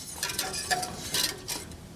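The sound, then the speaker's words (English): A spoon stirs peanut butter sauce in a pot, giving faint, repeated clinks and soft scrapes against the sides in an uneven rhythm, with no talk. “And then all you're going to do is stir it.”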